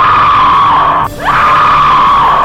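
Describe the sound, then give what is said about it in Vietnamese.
Two women scream together in fright, a loud, sustained, shrill cry held at a steady pitch that briefly dips and thins midway before surging back. “Họ cùng kêu thét lên.”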